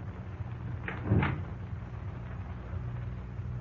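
A brief knock and creak as an unlocked door is opened, a single short, muffled sound rising only slightly above a steady background hiss.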